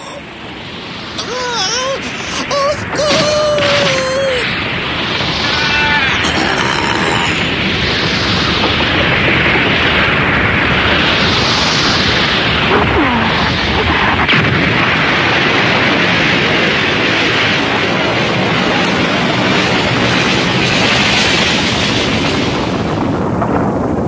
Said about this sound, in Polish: Wybuchła jakaś bomba.